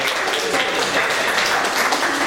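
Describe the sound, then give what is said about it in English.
Audience applause for a co-host on stage at a live event: a steady, dense wash of clapping that fills the whole clip without a break. “Could you give him a little applause for him up on the stage?”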